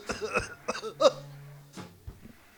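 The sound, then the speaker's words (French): Coughing brought on by cigarette smoke: a few harsh, throaty bursts come close together at the start, and a couple of weaker coughs follow after a short lull. “Je les ai enfumés, ça les fait tousser.”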